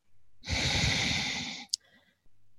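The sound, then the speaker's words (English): A long, forceful exhale after a held breath during a breathing exercise. It is a loud, steady rush of air lasting about a second, then a brief, sharp sniff-like sound, followed by quiet breathing. “Just keep holding the breath. And then exhale.”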